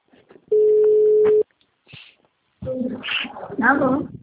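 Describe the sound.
A telephone ringback tone from an outgoing call, one flat mid-pitched beep lasting about a second, then a short pause before a voice speaks.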